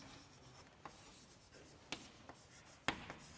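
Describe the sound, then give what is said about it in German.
Faint strokes of writing during a mathematics lecture, a soft scratching rub broken by a few sharper taps of the writing tool against the surface. “Also kann ich schreiben,”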